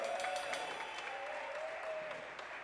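An audience applauds and cheers for a guest being introduced at a live music show, with steady clapping and a faint, sustained cheer running through it.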